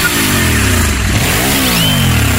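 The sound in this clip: A new sports motorbike engine revs loudly and continuously, its pitch dipping and then climbing again in a throaty, sustained roar.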